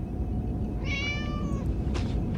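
A cat lets out a single drawn-out meow, clear and tonal, over a constant low rumbling noise bed.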